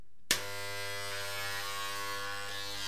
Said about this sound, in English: Hold on. Just want to, about ready to finish shaving here. I don't want to look unkempt for today's show, you dig?